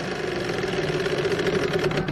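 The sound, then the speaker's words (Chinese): A racing car's engine on a circuit as the car slows and stalls, heard as a steady, mid-pitched buzzing drone that runs throughout without speech. “安东尼车突然间慢了下来。哦，安东尼里这边是要退赛了吗？”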